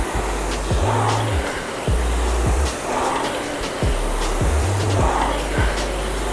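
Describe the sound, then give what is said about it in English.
An air flywheel on a Concept2 RowErg rowing machine whirs fast in a steady, loud whoosh that surges rhythmically with each stroke, roughly every two seconds, with no talking. “flywheel spinning fast. It takes skill to lock in and make it spin faster.”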